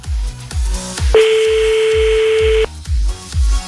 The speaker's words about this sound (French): Donc s'il est plus là c'est pas grave, on va appeler la sœur sans lui.